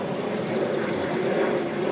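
An airplane flies overhead, making a continuous broad roar with a low rumbling undertone. It stays loud and even, without a break, for the whole two seconds.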